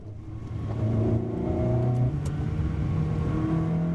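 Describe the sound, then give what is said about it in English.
A $200,000 Ferrari sports car engine revs with a loud, steady, deep harmonic growl whose pitch shifts upward in steps. It sounds alone, with no talk. “That's the sound of George Kibala's $200,000 Ferrari.”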